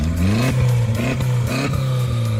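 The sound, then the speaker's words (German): An Audi A3 stubble-field race car's engine revs hard in the paddock of a rural stubble race. A loud, rough roar surges upward in pitch in a few quick, repeated bursts. “dieses Geräusch, das gehört zu dem Audi A3 von Jana Zillmann”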